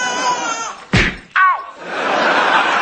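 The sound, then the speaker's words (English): A punch lands as two sharp, loud thwacks less than half a second apart, the second followed at once by a brief falling vocal cry, with a low murmur of background sound around them. “He has punched me.”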